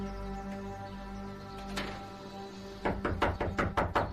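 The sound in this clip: Knocking on a house door: a steady low hum runs for a while, then several quick, hollow thuds land in a close burst near the end.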